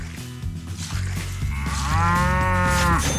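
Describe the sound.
A cow moos in a long, deep, drawn-out call that swells louder toward the end, following some lower rumbling sounds.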